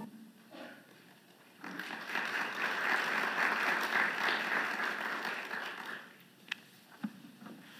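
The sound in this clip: Audience applause welcoming an institute vice president to speak at a morning event. It starts abruptly after a quiet opening, holds as a steady, full clatter for about four seconds, then dies away, leaving a couple of faint knocks.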